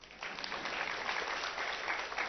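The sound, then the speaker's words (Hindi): Audience clapping at a class gathering, a steady, even patter of many hands, fairly faint and continuous throughout with no voices. “ताली बजाओ”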